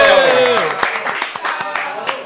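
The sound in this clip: Audience applause for a guest being introduced, beginning under a voice and then breaking into scattered, crisp claps that continue unevenly to the end.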